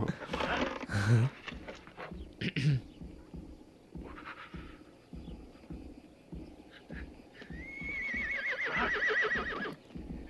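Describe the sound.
A horse lets out a loud, long whinny near the end, a wavering call that falls in pitch. Before it comes a stretch of busy, mixed sounds with voices.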